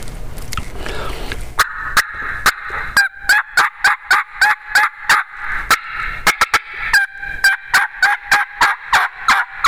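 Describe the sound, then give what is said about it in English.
A turkey call yelping, made on a call to excite a gobbler: after a second of soft rustling, many loud, sharp yelps follow in a fast, even rhythm, with clipped cut notes. “Listen to the rhythm of the yelp here. I'll pick up the rhythm of the yelp. Try to get his attention, get him excited.”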